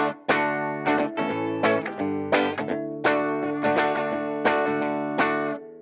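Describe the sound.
Distorted electric guitar from a Nash guitar, with the tone turned fully trebly on the rhythm circuit, plays a rhythmic run of ringing strummed chords. The playing is loud and bright with no voices.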